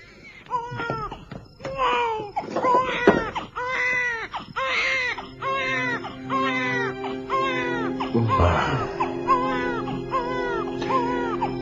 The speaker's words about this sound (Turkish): Canım benim. Oh, ağlama ağlama canım.